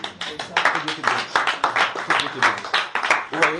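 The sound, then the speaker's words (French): A church audience claps for a sister in a fast, even rhythm of many sharp claps that pulse for several seconds, with voices mixed in. “Applaudissez pour la sœur.”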